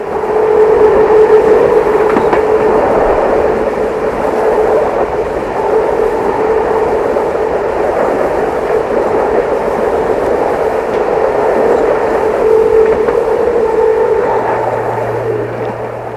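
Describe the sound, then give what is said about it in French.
Steady rumble of a train travelling to Lyon, with a continuous low roar and a faint sustained tone holding level throughout, loud and even with no voices. “prend le train tout de suite pour Lyon”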